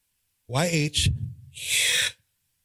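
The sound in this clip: A voice imitating the sound of a breath, held close to the microphone. A short voiced syllable gives way to a soft, drawn-out breathy exhale with no other sound around it.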